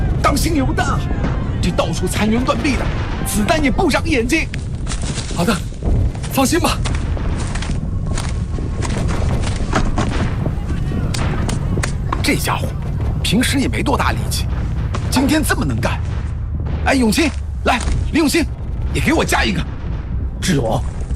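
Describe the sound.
Artillery shells and gunfire explode in a battle among ruined walls, a dense, unbroken barrage of heavy booms and rapid cracking shots that stays loud throughout, with voices mixed into the din.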